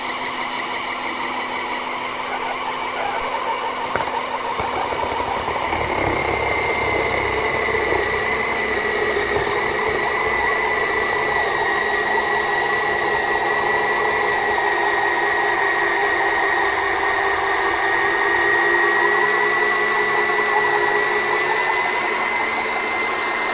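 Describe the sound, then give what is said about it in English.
A machine motor picking up speed as its cycle finishes, a loud, steady whirring hum with a tonal whine running unbroken throughout. “And as you hear the motor sort of pick up speed, that's sort of a fairly good indicator that it's finished”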